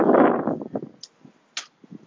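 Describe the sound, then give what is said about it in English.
Wind blowing into a microphone outdoors: a loud, low buffeting rush in the first half-second, then fainter uneven sputters and a couple of short hissy gusts. “Sorry for the wind, you know. Outside using my headphones, so I'm just passing.”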